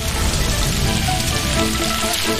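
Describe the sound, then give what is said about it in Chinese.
Goose meat sizzles and bubbles in a wok with salt, sugar, MSG, dark soy sauce and rice wine, a dense, even hiss that runs without pause or voices. “再将盐、糖、味精打底，老抽上色，倒入米酒后，鹅肉便在锅中翻腾入味儿”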